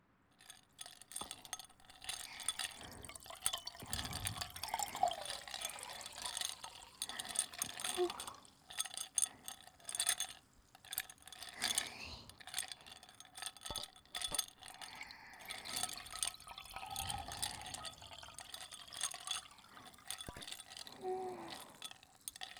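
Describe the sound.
Carbonated water fizzing over ice in a glass, recorded for ASMR: a soft, continuous crackle of bubbles broken by scattered clinks of ice against glass, quiet throughout.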